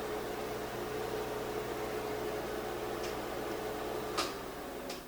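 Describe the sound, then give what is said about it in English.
Newly installed range hood vent fan over a gas stove running, a steady whooshing drone with a low hum underneath, with a few faint ticks near the end. “She had never had a vent in here, but because this is a gas stove, code requires that we have a vent. Let's see if it works.”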